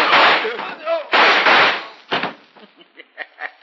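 Gunshots ring out in a western radio drama as the character Davis fires his guns. Several loud, sharp blasts are followed by a run of smaller cracks that grow fainter.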